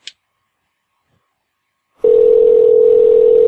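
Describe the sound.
A telephone dial tone plays while a caller redials someone. After about two seconds of near silence and a faint click, the steady, loud, unbroken mid-pitched hum starts and holds to the end.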